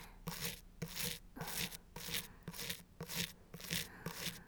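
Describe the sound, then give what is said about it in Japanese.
A toothbrush scrubs someone's teeth, worked by another person. Soft, bristly back-and-forth strokes repeat in a steady rhythm many times, with no talking. “こうして他の人に歯をゴシゴシされるのってまだくすぐったいままです？”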